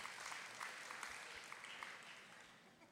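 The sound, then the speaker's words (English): Dense applause from an audience clapping together at Zoe Church during a sermon, a steady, even patter of many hands that holds for the whole stretch with no voices over it. “Clap if you're ready to be a leader for God.”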